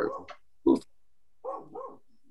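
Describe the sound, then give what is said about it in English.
A dog barks at a car pulling up a driveway. There are a few short, sharp barks separated by pauses, with one especially abrupt, loud bark in the middle. “That's my dog's right next to me. That's the people that I'm staying with's dog. It's just he's barking at somebody's pulling up the driveway.”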